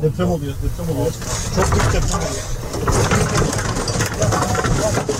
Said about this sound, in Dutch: Ja, wat je hoort is, en ook als je de beelden zou zien, een heen en weer schuddende auto.